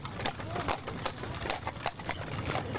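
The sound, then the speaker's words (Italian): Hooves of a horse pulling a carriage along a riverside street by the Seine clip-clop in an even, steady rhythm, with many moderately loud strikes. “Pierre venne travolto da una carrozza mentre camminava sul lungo Senna”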